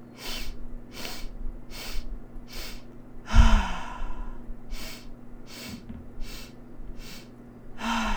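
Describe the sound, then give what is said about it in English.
Guided breath work: four short, sharp sniffs in through the nose, then one long, loud exhale out of the mouth, followed by another set of four quick nasal inhales, over a faint steady low hum. “Remember, it's 4 short inhales through the nose, 1 letting go exhale out of the mouth, and it's going to sound like this.”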